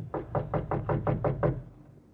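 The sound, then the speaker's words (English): Knocking on a private door off a reception room: a rapid, even series of about eight sharp raps, fairly loud, with a low hum underneath and nothing after the last rap. “We'll knock once on this private door here and then go in.”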